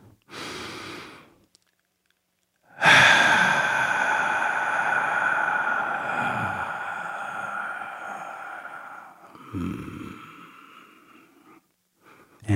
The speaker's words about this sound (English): So, if you're ready, let's take a deep breath.